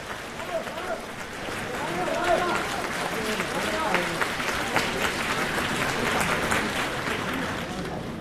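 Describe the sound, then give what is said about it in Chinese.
An audience applauds at a crosstalk comedy show. Steady, dense clapping swells after the first couple of seconds and carries on, with the performers' voices talking over it. “谢谢大家掌声。 对， 掌声对演员是鼓励”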